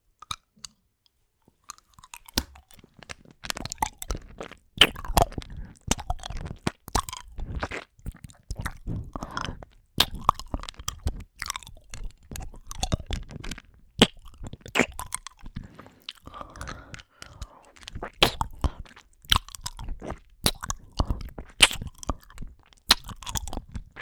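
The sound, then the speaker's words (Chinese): Chewing and crunching of hard candy in the mouth: many irregular, crisp cracks and crunches with wet clicks, fairly faint, going on steadily with no talk. “别动，我嘴里面含了糖块，你要不要尝一尝是什么味道？”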